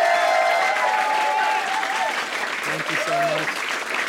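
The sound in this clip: Audience applause for the singers at a live music performance: dense, steady clapping that fills the whole stretch, with traces of voices ringing over it.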